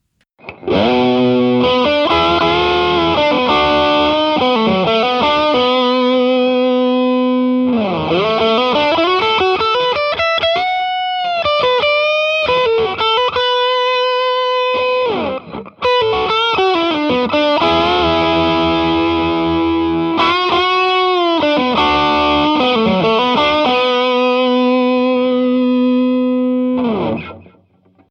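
Distorted electric guitar playing lead lines with the gain cranked up: loud sustained notes with bends and vibrato in two long phrases split by a brief break, with no voices.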